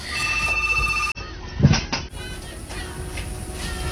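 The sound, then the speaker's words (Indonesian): A telephone on a call-in line rings with a steady electronic tone for about a second, then cuts off abruptly. A burst of noise and a lingering hiss follow. “Perkebaya pertama yang paling berkesan boleh bergabung di line teleponnya Pro 1 ya. Oke, saya coba terima lagi yang satu ini ya.”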